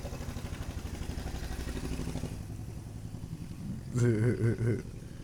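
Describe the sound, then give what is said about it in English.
A small lawnmower engine drives a makeshift shopping-cart vehicle, puttering with a rapid, rough pulse that swells briefly louder near the end, where voices also briefly overlap. “No, I don't even know what the fuck he was riding, bro. Sorry, guys. I mean, is that a shopping cart? I fucking have no clue. A shopping cart with a lawnmower?”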